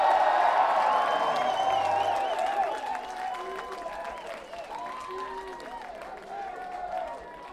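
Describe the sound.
An audience applauds and cheers for the drummer at a live band show, a dense wash of clapping that starts loud and eases slightly while a voice carries over it.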